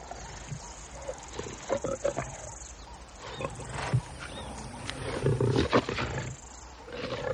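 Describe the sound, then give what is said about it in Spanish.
Lions growling and snarling over a kill in Africa, with rough, irregular bursts of low roaring and grunting rising and falling throughout, louder toward the end. “los leones prosiguen su festín.”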